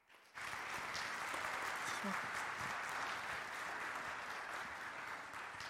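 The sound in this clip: Steady applause swells from a church audience welcoming a guest speaker. It starts abruptly after a brief quiet moment and holds at an even level to the end.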